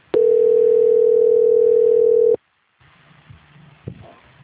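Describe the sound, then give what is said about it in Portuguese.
A telephone tone plays while a call is transferred: one steady, loud, single-pitched tone holds for about two seconds and cuts off abruptly, followed by faint line noise and a brief click. “Só um minuto, por favor, que eu vou transferir a sua ligação.”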